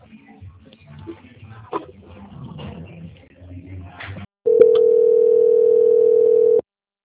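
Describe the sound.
A telephone line tone plays while a bank call is being transferred: one steady, mid-pitched continuous tone lasting about two seconds. Quiet talk and shuffling handling noise come just before it.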